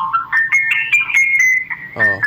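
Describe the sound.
A melodic electronic ringtone announcing an incoming call waiting on a phone: a rising run of bright, warbling notes settles into a held tone, with a brief buzzy burst near the end.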